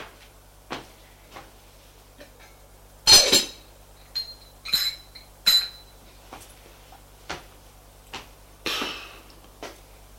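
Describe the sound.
Dishes and cutlery clink as a man prepares his breakfast. Sharp knocks and bright ringing taps come one at a time over about ten seconds, with quiet gaps between and a few louder clatters among them.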